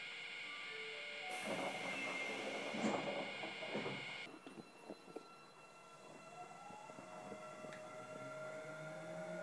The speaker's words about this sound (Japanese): この電車は次の今里までです。